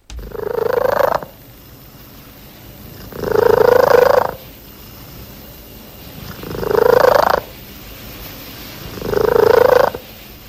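A female pet cat purrs and coos like a pigeon. Four loud, drawn-out cooing trills rise in pitch, each lasting about a second, separated by a softer, steady purr.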